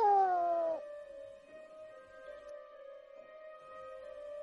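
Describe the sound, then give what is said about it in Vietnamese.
A cat meows in a hallway: one loud meow with falling pitch at the start, followed by a long, steady, fainter tone that holds to the end. “Lại là tiếng mèo kêu ngoài hành lang, không thể lầm lẫn vào đâu cả.”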